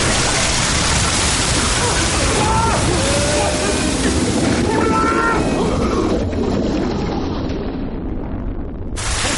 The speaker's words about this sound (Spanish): Se produce otra explosión. El agua entra en el compartimento.